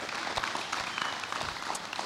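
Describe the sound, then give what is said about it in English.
Church audience applauding the worship team after a morning service, a soft, steady patter of many hands clapping together, faint and brief. “Give them one more round of applause this morning. They did a great job.”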